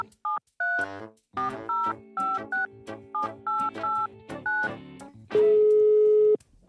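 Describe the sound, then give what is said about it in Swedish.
Touch-tone keypad beeps ring out as a phone number is dialed to call someone in Norrköping: a quick, uneven string of short tones, then one long steady tone. “ska man ringa den där lallaren i Norrköping då?”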